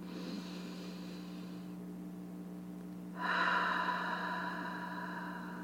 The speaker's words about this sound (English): It's always favorable to breathe in through the nose and out through the mouth.